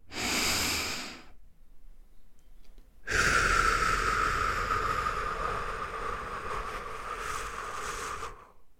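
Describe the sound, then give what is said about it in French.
Slow breathing during a guided relaxation exercise, drawn in through the nose and let out through the mouth. A short breath comes first, then after a pause a long, steady, audible exhale that gradually fades. “inspirez par le nez en sentant votre ventre gonfler, puis expirez longuement par la bouche en sentant votre ventre se creuser.”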